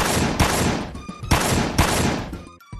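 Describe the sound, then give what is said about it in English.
Gunfire from the SNES video game Clayfighter Tournament Edition: several loud, dense bursts of shooting in quick succession, with sharp attacks and crackling decays, keeping a nearly continuous roar throughout. “Our bullets are doing nothing to him.”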